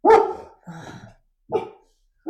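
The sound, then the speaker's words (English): A dog barks a few short, sharp times with quiet gaps between, the barks loud and rough, and the last one cut off at the end. “You know what? I have to tell you, my dog does not like aristocracy.”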